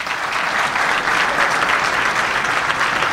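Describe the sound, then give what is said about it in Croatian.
Dense, steady applause from an audience at a public event in Tešanj, given in honour of Radio Television of Bosnia and Herzegovina; continuous loud clapping with no pauses from start to end. “ja ću iskoristiti priliku pa vas sve zamoliti i za jedan veliki aplauz za radio televiziju Bosne i Hercegovine”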